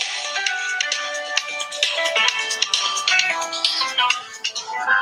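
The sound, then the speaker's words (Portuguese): Phone ringtone from an incoming call, a loud, bright electronic melody of quick high tones that plays continuously with no voices over it. “Desculpe aí que entrou aqui uma ligação indevida.”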